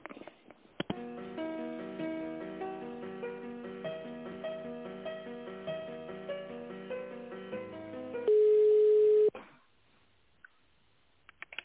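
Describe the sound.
Narrow-band telephone-line hold music plays while a call is transferred, a repeating tinny melody that gives way to one long steady tone, followed by near silence.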